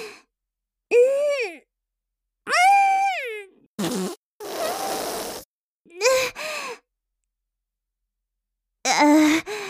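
A fart from a person with an upset stomach while tidying a cluttered room, heard among several short bursts separated by silences, some buzzy and noisy, others tonal and wavering like breathy sighs or gasps.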